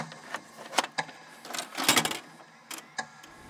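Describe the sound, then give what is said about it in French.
Mechanical clicks and clunks from a video cassette player fast-forwarding a tape. The machine often chews up cassettes. The bursts are irregular and uneven in loudness, with a busier cluster midway. “Bah, attends là, j'accélère là. J'espère qu'il a pas bouffé la cassette ce con là, parce le fait une fois sur deux maintenant”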